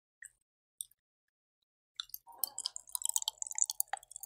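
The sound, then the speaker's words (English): Grape-flavored Asian Pop Rocks candy crackles in a mouth: a couple of isolated clicks, then a dense burst of rapid, bright fizzing snaps and pops. “You hear that shit? Mmm, these are good. Okay. These are Asian Pop Rocks. That's what these are. Fuck yeah, grape flavored.”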